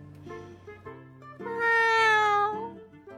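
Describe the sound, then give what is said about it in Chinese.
A cat meows softly in one long, drawn-out, tonal cry that swells in the middle and tails off, over a faint steady background tone. “软软的喵呜一声”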